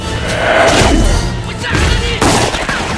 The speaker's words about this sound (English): The sniper's shot.